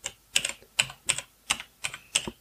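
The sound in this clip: Quick keystrokes on a computer keyboard type a startup message for a Garmin Montana 700 handheld GPS. The taps come in short clustered bursts at a steady pace, crisp and moderately loud, with no talking.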